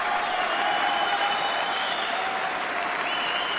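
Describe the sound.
An audience of largely professional musicians applauds the Thad Jones Mel Lewis Orchestra at a September 1969 jazz concert in Studio 104 of the Maison de la Radio, a dense, steady roar of clapping that continues throughout.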